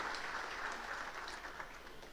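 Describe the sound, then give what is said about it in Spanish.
Warm applause welcomes guests, including visiting priests from Poland and other countries, at a Sunday Mass. A dense, steady patter of many hands clapping runs throughout, soft and even. “los recibimos con un caluroso aplauso”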